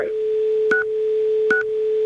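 Two short touch-tone telephone dialing beeps sound over a steady, continuous electronic tone, with no voices.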